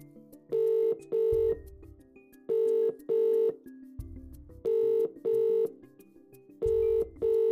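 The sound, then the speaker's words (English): A telephone rings back on an international call to a +44 number, in four pairs of bright, buzzy double rings with short pauses between each pair. “so I better call him up. This is going to be a longer number. It's an international number.”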